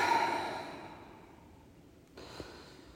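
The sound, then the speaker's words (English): A long, deep breath: a soft, airy exhale that fades slowly over about two seconds, faint and alone, followed by a brief quieter breath sound. “Take a long, deep breath.”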